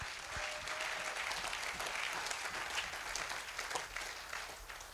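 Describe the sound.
Church audience applauding in praise during a sermon, a dense, even wash of many hands clapping that holds steady throughout with no voice on top.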